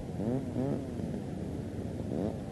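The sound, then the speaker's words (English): A power saw cutting wood, its motor droning with wavering, rising and falling pitch sweeps at the start and again near the end, steady and moderately loud throughout with no talk. “Oh, it's a power saw. Oh. They're going to cut the wood.”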